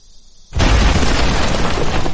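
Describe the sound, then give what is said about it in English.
A bomb explosion bursts in suddenly after a quiet moment, a loud deep boom that swells at once into a dense, sustained roaring rumble that holds steady to the end. “That was the bomb that still makes Kent jump.”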